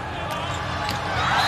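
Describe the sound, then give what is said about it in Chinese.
A volleyball serve, struck by the Chinese side during a match, drops into the net: two brief faint thumps over a steady wash of crowd noise. “上来发球下网了。”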